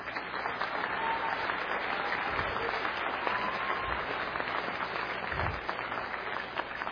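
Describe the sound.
Applause from a lecture audience welcoming a speaker to the podium, an even, continuous patter of many hands that holds at a moderate level from start to finish.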